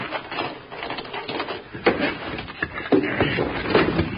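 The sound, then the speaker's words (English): A heavy sliding door rolled back in an old-time western radio drama, a rough, continuous scraping rumble with a few louder thumps along the way. “Quit asking fool questions and slide that door back”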